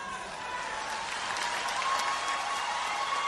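A round of applause from a crowd at a Brazilian event, a continuous, fairly quiet patter of many hands that swells slightly toward the end.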